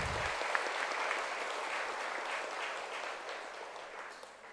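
Steady applause from an audience at a Buddhist commemoration of the Buddha's Nirvana day: dense, continuous clapping that holds evenly and slowly tapers toward the end.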